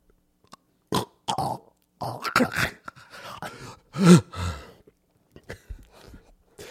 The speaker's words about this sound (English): Let's say there's a slight snore. Right? Yeah. Mm-hmm. Okay. I probably sound something like this.